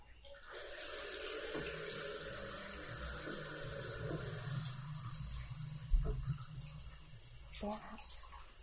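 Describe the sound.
Water runs steadily from a tap as a body is rinsed, a quiet continuous splashing hiss with a few soft knocks and bumps toward the end.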